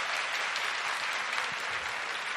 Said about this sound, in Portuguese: Quem crê nessa realidade, dá uma salva de palmas bem forte a Nosso Senhor.